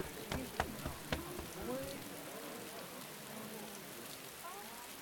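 Steady rain in a dramatic scene: a soft, continuous hiss of falling drops, with a few sharper taps near the start, staying faint and even throughout.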